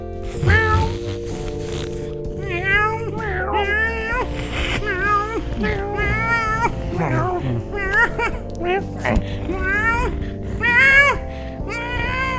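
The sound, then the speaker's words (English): Several cats meowing inside a giant plastic bag: many overlapping high, wavering meows repeat throughout over a steady droning background. “I'm gonna shove him in this giant plastic bag with four cats.”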